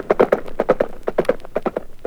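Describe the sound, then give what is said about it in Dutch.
A horse trots up carrying a rider, its hooves clip-clopping in a brisk, steady rhythm of many crisp knocks, loud and alone. “kwam er een paard aandraven met een boodschapper op zijn rug.”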